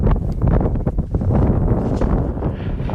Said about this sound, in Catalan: I aquest és el so del vent de Svalbard.